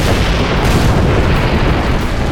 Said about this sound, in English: When the dynamite exploded, the rails were left bent and curled, with 20 feet of track destroyed.